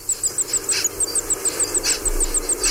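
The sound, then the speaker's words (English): A nesting bird calls while panting on its eggs: a steady run of many short, high, squeaky pulses in an even rhythm, like a squeaky wheel, fairly faint and alone. “Sitting on its eggs in the nest, panting, and while they're doing that, they might be giving a call that sounds a bit like this.”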